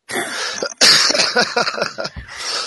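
Throat clearing and phlegmy coughing, a loud, rough run of several harsh, wet bursts that continues almost without a break and has no talking over it.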